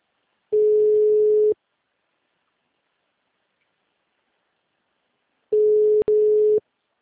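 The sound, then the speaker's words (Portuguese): A telephone ringback tone while a caller waits for an answer: two steady mid-pitched tones, each about a second long and spaced about four seconds apart. The second tone is briefly broken by a click. “Atende, minha filha, em nome de Jesus.”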